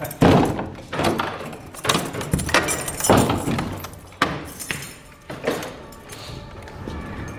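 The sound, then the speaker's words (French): Door of Notre-Dame cathedral being opened in the morning: a run of loud, irregular metallic clanks, knocks and clinks, several sharp thuds with ringing tails, fading toward the end. “Là, il faut que j'ouvre la porte.”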